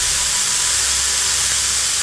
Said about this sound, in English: I superheat it to the point of combustion. It flares as brightly as a tiny sun, melting the doorknob and the lock.